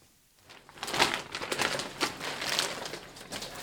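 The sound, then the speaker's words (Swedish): Paper wrapping crinkles as a diploma is unpacked at an award ceremony, giving irregular, fairly faint crackles and rustles that start after a quiet moment and continue steadily. “Och här packar han upp Eva-Marie Svenssons diplom.”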